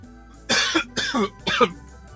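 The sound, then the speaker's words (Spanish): Three short, harsh coughs in quick, evenly spaced succession from a person with a morning allergy, fairly loud and alone with no talk. “Voy a toser otra vez más.”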